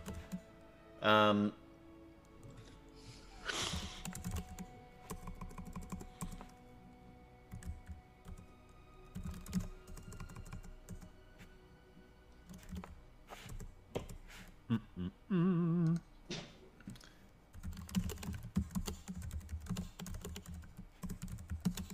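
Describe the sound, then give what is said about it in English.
Keyboard typing as someone types a letter, with many quick irregular keystrokes and a few louder knocks and clunks scattered through. “Typing a letter to Jason.”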